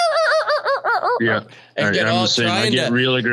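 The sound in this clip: A voice imitates a turkey hen during a hunt: first a quick run of short, evenly spaced yelping notes, then, after a brief pause, a louder, longer and more aggressive stretch of calling.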